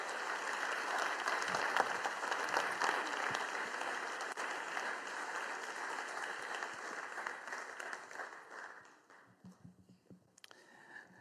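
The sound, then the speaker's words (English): Audience applause welcomes a couple onto the stage as a sustained wash of clapping that holds steady for about eight seconds, then thins and dies away into quiet with a few scattered sounds. “But I wonder if you could just put your hands together and welcome. And it really is a welcome moment.”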